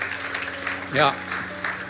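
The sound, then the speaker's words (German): Audience applause at a worship gathering: a steady, moderate wash of clapping that runs through the whole clip, with a voice briefly rising over it midway. “Und wenn du das zum ersten Mal gebetet hast, wir wollen dir mit einem Applaus zeigen, wir freuen uns voll für dich.”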